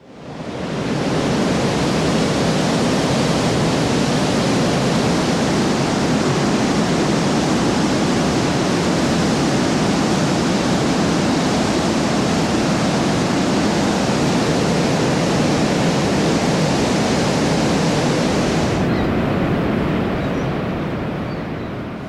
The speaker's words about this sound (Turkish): Niagara Şelalesi'nin yakından çekilmiş sesini dinleteceğim biraz.